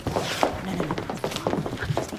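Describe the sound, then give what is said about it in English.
Footsteps of girls walking off a stage: a few soft, irregular thuds and scuffs over a busy, continuous background. “The girls stand up and walk off stage.”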